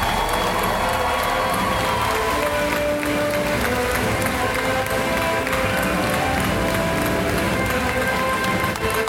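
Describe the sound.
A crowd gives loud, sustained applause and cheers to welcome four Walt Disney Imagineers onto a stage. The dense clapping stays intense and unbroken for the whole stretch.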